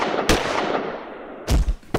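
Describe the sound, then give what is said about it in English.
Gunfire in a gun battle with several attackers: a few sharp, loud cracks, one early and a cluster near the end, over a steady low hiss. “we are in the thick of a gun battle with an array of villains who are shooting at us for who knows why.”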